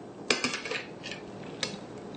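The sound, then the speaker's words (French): A knife slices firm vegan ice cream into pieces about one centimetre thick for ice cream sandwiches made with cookies. A few quiet, sharp clicks and scrapes sound against a soft background. “Donc, il s'agit simplement de mettre un biscuit, de trancher à peu près, je dirais, 1 cm d'épaisseur.”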